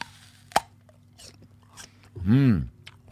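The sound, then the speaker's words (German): A single crisp, sharp crunch as someone bites into an apple, followed by a brief murmuring voice sound. “Ich werde jetzt erstmal genüsslich in meinen Apfel beißen.”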